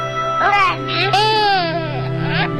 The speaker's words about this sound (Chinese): 宝贝，别哭，爸爸抱。